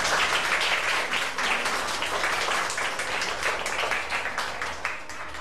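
Children applauding in a classroom, a dense, steady burst of clapping that stays loud throughout and eases slightly at the end.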